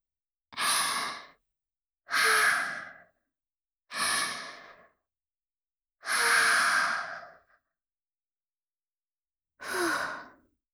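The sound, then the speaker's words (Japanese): Someone takes slow, deep breaths to calm down: five long, breathy exhales with even pauses between them and silence in the gaps. “恥ずかしいよ。ちょっと深呼吸するから待っててね。”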